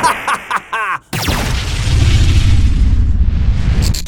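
Explosion of a portal being destroyed in a sci-fi drama: a few short clipped sounds lead into a sudden loud, roaring blast that keeps rumbling for about three seconds before cutting off.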